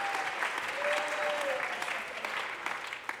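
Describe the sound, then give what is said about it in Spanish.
Applause from a church audience during a worship service: sustained, loud, dense clapping that holds steady, then thins slightly toward the end. “Somebody give him praise. Fuerte aplauso. applauso al Señor.”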